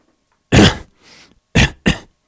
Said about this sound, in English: clearing the throat there